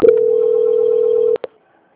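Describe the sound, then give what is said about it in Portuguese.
A telephone call-transfer tone: one long, steady mid-pitched beep held for over a second, cut off by two sharp clicks and a brief final blip, then silence. “Só um segundinho que eu vou transferir a senhora novamente para a Catiane”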